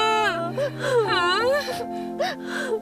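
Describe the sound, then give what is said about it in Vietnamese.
A person crying and whimpering in a continuous stream of whiny, wavering moans, the voice sliding up and down in pitch with a few sharper catches. “Sao khóc hoài vậy? Sao bạn khóc hoài vậy?”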